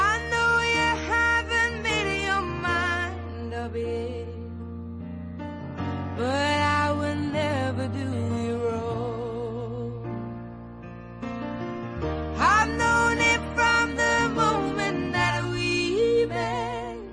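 A slow pop ballad, a female-vocal cover of an older love song, with sustained sung lines over a full, steady accompaniment that swells and thins across the passage. There is no talk.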